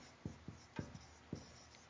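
Handwriting makes about five short, faint scratchy strokes spaced irregularly across a quiet background.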